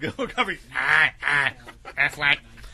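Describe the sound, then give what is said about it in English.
A voice imitates a duck quacking, giving several short, nasal, buzzy quacks in an uneven rhythm after a brief bit of vocal sound at the start. “There we go. Chim Chim will speak like a duck.”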